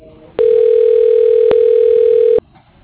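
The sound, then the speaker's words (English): A single steady telephone tone from an automated company phone directory dialing through to a voicemail extension holds for about two seconds, then cuts off, leaving faint line hiss. “Dialing.”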